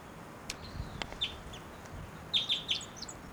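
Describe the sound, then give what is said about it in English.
A female wild bird gives short, high flight calls: a few faint, brief chirps spread out early, then a quick cluster of sharper calls near the end. “Wild bird, that might be the male in the back, but those flight calls were the female.”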